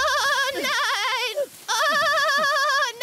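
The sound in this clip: A lamb bleats in two long, loud, quavering cries with a strong wavering pitch, separated by a brief pause.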